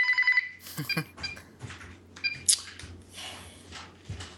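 A home telephone rings in one short, warbling burst at the very start, then gives way to quieter, shuffling background sounds.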